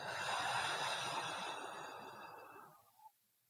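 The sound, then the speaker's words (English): Breath let out audibly through the mouth, a soft, breathy rush that holds steady and then tapers off into silence, faint and alone. “Again, breathe in. Out with sound.”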